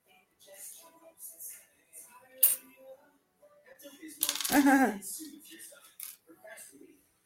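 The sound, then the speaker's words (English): Small metal charms are grabbed and clink together in one brief, bright jingling rattle, set among quieter card-handling rustles and a soft voice talking. “Got two cards. Oh, let me grab two charms.”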